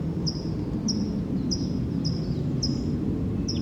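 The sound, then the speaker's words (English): A wild bird calls in the distance, giving six short, high chirps at a fairly even pace over a low, steady background hum. “I hear the wild bird calling in the distance.”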